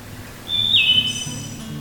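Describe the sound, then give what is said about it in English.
Wood thrush song: a clear, flute-like whistled phrase that jumps up to a higher, thinner trill. It is moderately loud over a soft, low background hum. “The wood thrush has a slow, flute-like melody. It is the quintessential, relaxed, chilled-sounding bird song.”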